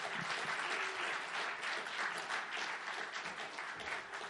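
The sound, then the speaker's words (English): Applause from a church audience welcoming a pastor: dense, even clapping that holds steady and fairly soft throughout, with no voices over it. “we just want to give you a warm welcome, Pastor Vera, to give her a hand.”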